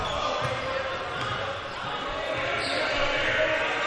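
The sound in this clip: A basketball is dribbled on the court during a Bulldogs game, its steady rhythmic bounces running under a bed of crowd noise while a voice talks over them.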